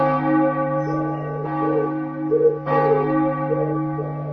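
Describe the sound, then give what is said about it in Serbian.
Church bells of the newly built St. Alexander Nevsky church in Dorćol, Belgrade, ring out with a rich, sustained hum, renewed by a couple of fresh strikes that swell the tone before it lingers on. “Stanislav Binički bio je uvažena ličnost kada je krajem 30. godina 20. veka pozvan da čuje novopostavljena zvona na novoj, upravo završenoj crkvi Svetog Aleksandra Nevskog na Dorćolu u Beogradu.”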